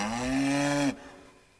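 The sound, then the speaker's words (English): A single cow moo, a sustained low, strongly harmonic tone lasting just under a second that cuts off abruptly, followed by quiet. “Okay, come on, cow. Let's go home.”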